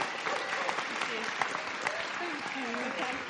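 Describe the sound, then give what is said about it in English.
An audience at a Christian prophetic gathering applauds to welcome a guest speaker, with dense, steady clapping throughout and voices and cheers mixed in. “let's welcome Jo enthusiastically to come and share with us.”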